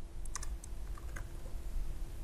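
Typing on a computer keyboard: a few light, scattered key clicks over a steady low background hum.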